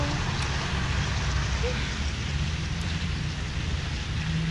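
Steady rain falls outdoors while someone waits for it to stop, a dense, continuous hiss of drops that holds at an even level throughout, with no voices.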